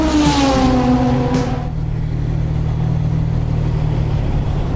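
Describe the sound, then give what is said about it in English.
Engine and exhaust burble from an XK150 sports car driving up a ramp to board a ferry: a loud tonal engine note for about a second and a half, then a deep, steady rumble that continues alone. “That's the sound of the XK150's engine and exhaust burble as we travel up the ramp to board the Seafrance Moliere.”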